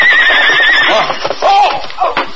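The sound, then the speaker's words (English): A big paint horse whinnying loudly while galloping across the plains, a long wavering neigh followed by shorter calls, with clip-clopping hoofbeats mixed underneath. “A big paint horse raced over the plains at a gallop.”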